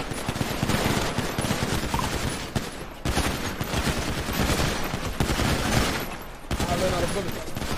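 Video game gunfire rattles almost without pause, a dense stream of rapid shots lasting nearly eight seconds with only a couple of brief breaks.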